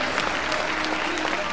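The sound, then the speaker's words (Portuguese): Brief applause from a church audience during a Christian radio service, a quiet, dense patter of many hand claps with a few sharper accents, steady throughout. “Aplaudo o nome do Senhor Jesus.”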